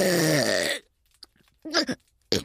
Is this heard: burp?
yes